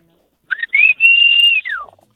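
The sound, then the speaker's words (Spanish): A person whistles on a street as a signal calling friends out to play football: two short rising chirps, then a long, loud, high held note that ends in a falling glide. “Entonces ya nos poníamos en la calle y empezamos a chiflar.”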